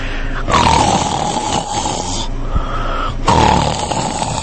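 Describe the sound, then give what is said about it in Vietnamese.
Loud snoring from a man who has collapsed, two long rough drawn-out snores with a nasal droning tone, separated by a quieter pause, heard alone without talk. “Khấu Trọng đổ vật vào lòng nàng, còn phát ra tiếng ngáy khò khò.”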